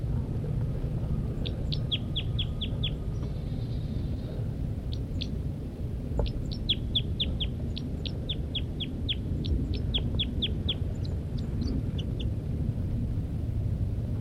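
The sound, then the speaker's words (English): A female bird gives flight calls from the nest: many short, high, thin chirps in quick clusters, fairly faint over steady low background noise. “The female continues to give flight calls from the nest.”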